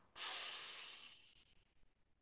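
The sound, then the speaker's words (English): A breath drawn in through the nose makes a soft, airy hiss that starts abruptly, holds for about a second, then tapers into faint rustling. It is quiet and heard alone. “Breathe in for 4.”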